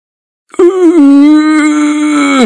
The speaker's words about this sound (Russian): Мычу я. Я хотел сказать «О боже», но не в силах вздохнуть.